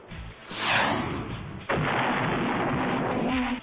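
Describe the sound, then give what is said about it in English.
A rocket fires from a forearm launcher: a swelling whoosh builds and fades, then an abrupt, loud roaring blast bursts in and holds steady to the end. “How about I try one of these rockets from my forearm? Yeah, rockets! I'll shoot it at him!”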